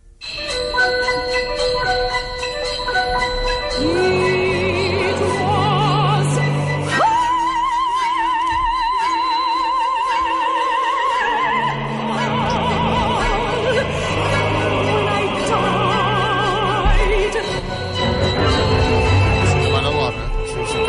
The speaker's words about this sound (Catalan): L'última òpera, una de les últimes òperes que s'ha estrenat al món, de l'any 2020, es diu Eurídice, i es va estrenar a l'òpera de Los Angeles, i sona d'aquesta manera.